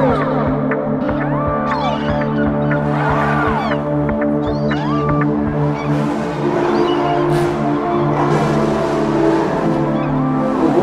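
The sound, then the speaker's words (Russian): A car's engine revs hard and continuously during a street drifting show on Nevsky Prospekt, its pitch repeatedly surging and falling. High squeals cut through the loud, unbroken roar. “Показательный дрифт прямо на глазах полицейских.”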